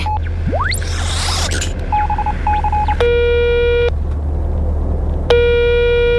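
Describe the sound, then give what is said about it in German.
Telephone dialing tones for a call placed over a radio link: a rising electronic sweep, then a few short beeps, then two long buzzing tones separated by a pause, all over a low steady hum. “X-Funker, bitte parallel zu Yvonne einmal Ava anrufen von der Erde.”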